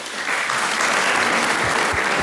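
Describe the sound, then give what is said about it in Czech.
Audience applause, dense and steady clapping sustained at even loudness throughout, with no voices over it. “Tleská i Jiří Suchý, mistře legendo.”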